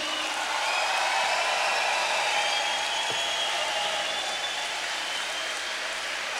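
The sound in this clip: Audience applause for a string quartet: a continuous, even wash of many hands clapping, moderately loud and unbroken throughout, with no voices.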